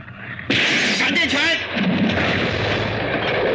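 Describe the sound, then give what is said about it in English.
Laser weapon blasts fire in a science-fiction film fight against a monster that keeps regrowing its heads. A sudden loud burst erupts and rolls into a sustained roaring, warbling blast that stays loud to the end. “He had to hit him with the other laser.”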